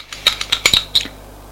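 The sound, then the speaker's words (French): A spoon stirring milk with cream in a cup makes several light, bright clinks against the container in an uneven rhythm, each one short and ringing, with no voices. “En tournant avec sa cuillère, Alexis voit de la crème qui s'accroche à la cuillère”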